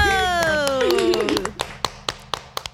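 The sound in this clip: Sharp hand claps, a few of them in a steady, fairly even rhythm, follow a drawn-out voice at the start.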